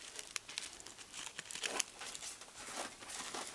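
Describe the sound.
Soft, continuous crinkling as flower petals are folded and laid overlapping one beside another to form a small rose. Faint, dense crackles come in irregular bursts without talk.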